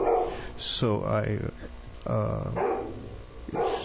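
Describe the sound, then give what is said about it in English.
A dog barks in the background while people talk. A couple of bursts of barking with a yelping, tonal quality rise above the ongoing voices. “I don't know if our listeners can hear the barking in the background. That's very odd for him to bark.”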